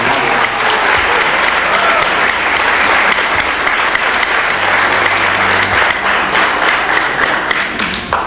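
Steady applause from a gathering honoring the women cooks who prepared their meals, with many hands clapping in a thick, continuous patter at a constant loud level from start to finish.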